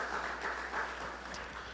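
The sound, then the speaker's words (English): Audience applause for teachers at a school gathering: steady, dense clapping throughout, even in loudness, with no talk over it. “Okay, please give them a round of applause. Over here, too.”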